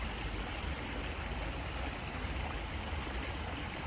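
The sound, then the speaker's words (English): A cold brook in Salt Lake City in July flows with a steady, even rush of water, fairly soft and unbroken throughout. “This is the sound of a cold stream, a nice cool brook in July in Salt Lake City.”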